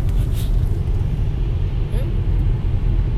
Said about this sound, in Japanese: 僕が運転中なので